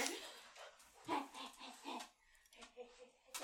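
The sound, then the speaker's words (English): Faint dog sounds, soft snuffling and breathy sniffs, from a dog that has wandered through an open door into a room indoors. “I thought I closed my door, but I did not. Now I have a dog in here.”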